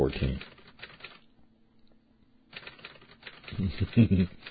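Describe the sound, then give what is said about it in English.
Typewriter or teletype clacking in a newsroom, a faint patter of rapid mechanical clicks running beneath a person talking. “the typewriter, the teletype, it adds something. Right, the ink-stained wretches in the newsroom back there behind me.”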